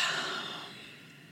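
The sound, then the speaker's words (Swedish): A long, deep breath, heard alone: a broad airy rush that is loudest at the start and fades away steadily over about a second. “Så vi kan båda två ta ett långt, djupt andetag.”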